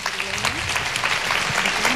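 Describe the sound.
Audience applause follows a pop singer's speech: dense, steady clapping that holds an even level for the whole stretch, with a voice faintly present beneath it.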